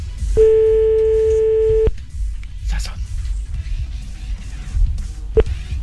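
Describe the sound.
Telephone ringback tone heard while placing a call: one steady, buzzing tone lasting about a second and a half. It is followed by quiet background noise and a single short blip near the end.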